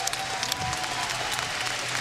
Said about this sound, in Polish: Wielkie brawa dla Bonusa, bo dał kawał dobrej roboty.